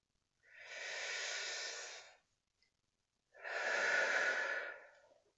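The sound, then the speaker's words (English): Deep breathing during a floor-reaching stretch: two long, steady breaths of airy rushing sound, fairly loud, separated by a short pause, with no talking. “breathing in as you stretch down, and then breathe out deeply and stretch just a bit farther”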